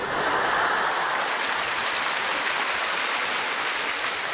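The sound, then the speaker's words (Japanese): Audience applause, dense and even, sustaining a loud continuous patter for several seconds. “なんですかこの拍手は。”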